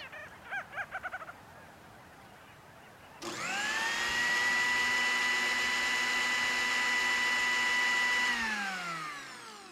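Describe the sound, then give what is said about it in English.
A blender whirs into a loud, steady whine, blending fish and squid into a smoothie for rescued albatross and petrel chicks at a wildlife preserve. It starts after a quiet opening, runs for several seconds, then winds down with falling pitch. “Now, that was the sound of preparing a fish smoothie for the youngest residents of the Wildlife Preserve.”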